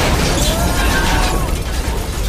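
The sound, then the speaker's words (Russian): Car blowing up, heard as a loud, dense roar of rumbling noise with crackle that stays sustained throughout rather than a single sharp blast. “Машина взрывается.”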